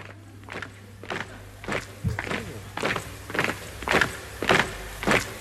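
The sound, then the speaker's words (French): Marching boots stamp in a steady, even rhythm, many heavy thuds in a row, in the intro of a song protesting against totalitarianism. The footfalls sound alone, with no voices. “On retrouve ce bruit de bottes caractéristique de tout bon titre engagé contre le totalitarisme.”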